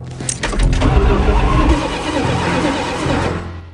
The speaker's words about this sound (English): He quickly tries the ignition.